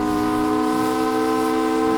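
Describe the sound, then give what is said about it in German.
A steamer's siren hoots loudly as the ship enters a bay: one long, steady, unbroken horn tone with a rich, droning timbre that holds throughout. “Früh am nächsten Morgen fährt der Dampfer unter gleißendem Sonnenlicht, fröhlicher Kapellmusik und lautem Tuten der Sirene in die Blanche-Bucht ein.”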